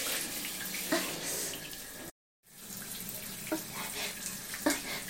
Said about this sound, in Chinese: 是不是因为这个水龙头的阀门关不上了呀？